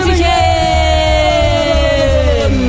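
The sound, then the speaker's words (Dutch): Loud cheering and whooping from a studio audience welcoming a quiz contestant, sustained voices held over a steady low rumble. “Geef haar een daverend applaus.”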